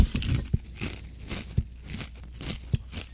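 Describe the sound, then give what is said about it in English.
Crunchy Blaze Doritos tortilla chips being eaten, with repeated sharp, crisp crunches over steady close-up chewing and crinkling noise. “Trying out some of these Blaze Doritos.”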